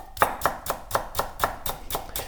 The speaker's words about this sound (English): I just want to hear the sound it makes when you cut onions and chives.